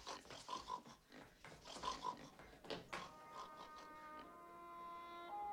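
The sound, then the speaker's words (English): A woman imitating a pig, a run of snorting, grunting oinks in an irregular rhythm over the first few seconds, followed by a steadier, quieter stretch. “Annie oinks at Paul and chases Misery out of the room.”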